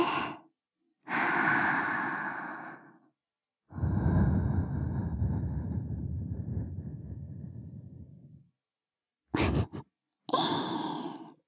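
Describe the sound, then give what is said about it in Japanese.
Soft breath blown into the ear comes as a few quiet, airy puffs with silent gaps between them. One long, steady exhale lasts several seconds in the middle, and short bursts close the sequence. “女の子にお耳ふうふうされるの気持ちいいでしょ。”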